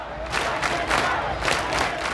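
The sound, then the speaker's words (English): About 12,000 marchers at the Brooklyn Liberation March chant together in loud, rhythmic unison, their massed voices rising in repeated pulses through the short clip. “This is the sound of 12,000 people just up the road from where I live. If you can't tell, they're chanting Black Trans Power.”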